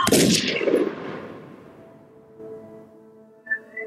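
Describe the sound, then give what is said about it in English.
A single loud gunshot in an alley gives a sharp, broad blast that decays slowly over about two seconds, then faint sustained tones follow. “She's then led into an alley and shot in the head.”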